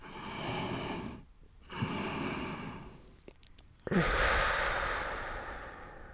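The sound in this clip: Deep breathing in through the nose and out through the mouth during a calming breathing exercise: a few long, airy, hissing breaths with short pauses between them, the last one the loudest and longest, with no talk.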